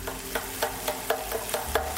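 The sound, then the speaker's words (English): Stirring and sizzling in a pan as green serrano chili fries in a reddish-brown spiced base. Regular scraping strokes of the stirring repeat over a steady low frying hiss. “And we're going to add now our green chili, which I'm going to slice up in a hurry while I'm doing this.”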